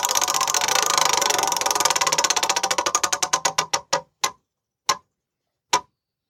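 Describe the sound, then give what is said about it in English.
A game show prize wheel spins with a rapid run of sharp clicks that gradually slow and spread apart, ending in a few isolated final clicks as the wheel comes to rest. “All right, let's give the wheel a spin.”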